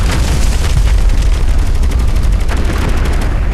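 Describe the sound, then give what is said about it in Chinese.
Machine-gun strafing fire pours out in a dense, continuous rattle of rapid, loud bursts with booming low thuds, and no voices. “好了，我们被盯上了，这是机枪扫射，我一定被盯上了”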